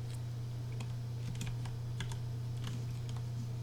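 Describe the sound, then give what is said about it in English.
Keyboard typing as a search query is entered: many faint, irregular key taps over a steady low hum. “I just typed in marijuana delivery, and there's a bunch of places.”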